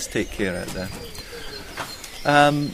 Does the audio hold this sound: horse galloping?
no